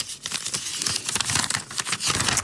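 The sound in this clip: Folded paper slips are picked and unfolded, making a continuous, fairly soft papery crinkling and rustling with many small crackling bursts and no talk.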